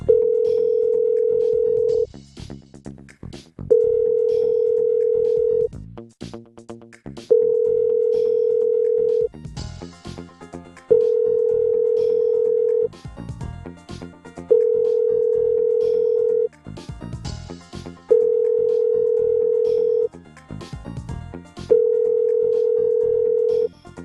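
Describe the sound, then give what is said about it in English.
Many telephones ringing at once: a steady electronic ring tone sounds in seven regular bursts of about two seconds, while other phone rings jangle and overlap in each gap between them. “A lot of ringing phones.”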